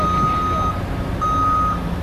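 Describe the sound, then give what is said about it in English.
Truck reversing beeps at a construction site for a new office tower on Wisconsin Avenue in Milwaukee: two long, steady high tones separated by a short gap, over a constant low rumble of machinery. “That's the sound of a new NM office tower being put up on the north side of Wisconsin Avenue in Milwaukee.”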